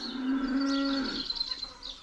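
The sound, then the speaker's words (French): Cattle of a new breed born of the union of Flanders and Burgundy moo in a pasture near a Burgundian château: a single low, drawn-out moo of about a second, followed by quiet background. “tout près du château de Germolles, cette toute nouvelle race bovine, symbole de l'union naissante entre la Flandre et la Bourgogne, rumine mollement.”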